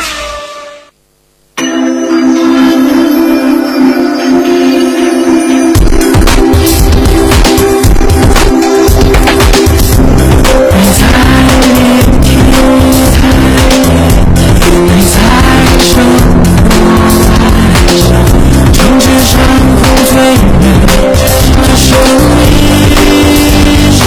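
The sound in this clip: Go-kart racing engines and tire squeal at a karting track in the basement level of an auto mall. A short burst opens, then a brief silence, then a loud, dense, sustained roar of engines fills the rest.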